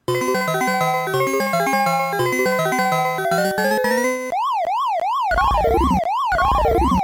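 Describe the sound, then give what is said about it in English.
Electronic sounds from the Super Pac-Man arcade video game: a bright, bouncing chiptune melody of short beeping notes, then rapid rising-and-falling warbling sweeps like a siren, loud and continuous without voices. “Oh, yeah, that's Super Pac-Man. Yeah, this... That's got to be Super Pac-Man.”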